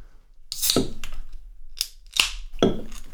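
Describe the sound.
A can of Kilimanjaro Premium Lager from Tanzania Breweries is opened with a few sharp metallic clicks and cracks, fairly quiet, with no voices.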